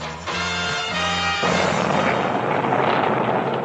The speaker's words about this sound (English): At the Thiokol Corporation facility in Utah, a shuttle booster that will produce about 2.65 million pounds of thrust at launch was successfully test-fired again.